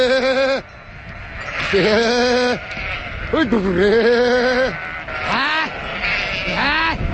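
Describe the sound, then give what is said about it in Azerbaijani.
A flock of sheep bleating at a winter pasture on the Baku–Shamakhi road: many loud, wavering bleats that overlap and repeat throughout, with a steady rustling background. “Həmsöhbətim Elxanın 700 baş qoyunu var.”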